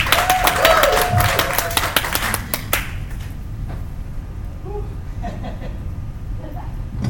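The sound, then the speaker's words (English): Church audience applause welcoming a pastor to the stage: dense clapping, loudest over the first few seconds, then thinning into a quieter background murmur. “without further ado, let us put our hands together to warmly welcome Pastor Yong Tai Tong.”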